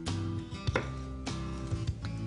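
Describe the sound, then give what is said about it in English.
A knife scores through pork on a board: a few soft, dull knocks and cuts against a quiet, low background. “You just wanna run your knife through the pork, give it more surface area so it can crisp up in the oven.”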